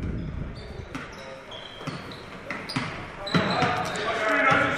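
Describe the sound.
A basketball dribbled on the court during a game as play is brought up, giving a few sharp bounces in an unhurried rhythm under continuous talk.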